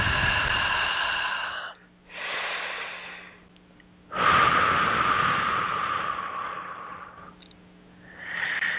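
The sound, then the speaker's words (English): Slow, deep breaths drawn in and let out during a guided meditation: airy, broad whooshes rising and easing in a few long waves, with no talk over them. “Nice big breath with that.”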